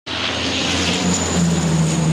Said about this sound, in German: Löschflugzeuge im Dauereinsatz.